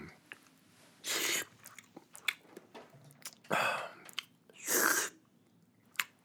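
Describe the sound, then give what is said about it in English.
Noodles slurped from a bowl in Matsuyama, Japan: three long, loud, hissing slurps with scattered small chewing clicks between them, and no talk. “Fumiko sits opposite Nick Nakura and watches as he finishes a bowl of noodles.”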